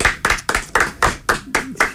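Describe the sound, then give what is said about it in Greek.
One person clapping hands in support of a football-playing cousin: a steady run of sharp, crisp single claps, about four per second, evenly spaced and fairly loud, with nothing else around them. “Εγώ χειροκροτάω εδώ λόγω του ξαδέρφου, του Λάζαρου”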